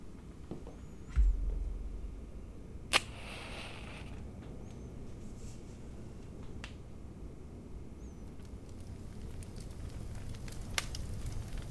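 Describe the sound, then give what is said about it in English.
A small fire being started and then crackling, with a sharp snap early on and another crisp pop shortly after, followed by faint, sparse crackles and occasional pops over a low steady hiss. “I'm gonna head over here and start up a little fire for us.”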